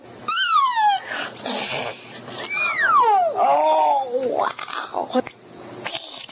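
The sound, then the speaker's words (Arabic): A little girl's voice imitates animal sounds, including a cat's meow, in a few swooping cries that rise and fall in pitch, mixed with other playful vocal noises. “طفلة صغيرة بريئة بتحاول انها تقلد اصوات الحيوانات، يقولوا لها قطة تعمل مياو”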